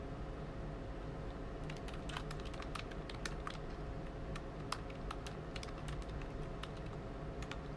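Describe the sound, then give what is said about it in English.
Someone types on a computer keyboard, many quick, faint key clicks in uneven bursts over a steady low background hum. “Wait, I want to type something”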